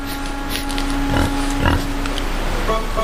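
Grunting and snuffling from two wild boars feeding, recorded by an infrared trail camera. Soft, intermittent animal noises with a couple of louder bursts sit over a faint steady hum.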